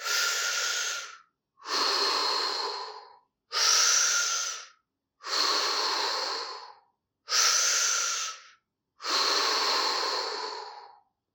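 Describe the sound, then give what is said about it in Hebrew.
Deep, rhythmic breathing from the chest and diaphragm, pushing air out: six long, loud breaths in a steady, even pace, each a broad rushing hiss separated by short silences, with no talking. “אני מקווה שכל אחד שמע את הקצב, ואני עובד ממש עם כל בית החזה והשרעפת, לנשום עמוק מאוד ולשחרר אוויר החוצה.”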